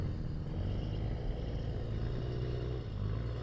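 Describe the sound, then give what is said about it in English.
Deep, steady engine rumble from a competition truck reversing on a cone course as the driver gives it throttle. The low drone holds at a constant loudness, with only slight wavering and no sharp surges. “He's got it in reverse. He's lining it up. I wouldn't say he's necessarily walking it. He's, he's trying to give it some throttle.”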